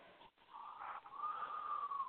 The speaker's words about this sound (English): take a big breath in through your nose, out through your mouth